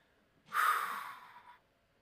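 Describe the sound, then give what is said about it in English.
A single deep breath is drawn in, a soft airy rush lasting about a second that swells quickly and then fades out, heard alone. “if we all want to take in a deep breath and just calm down a little bit.”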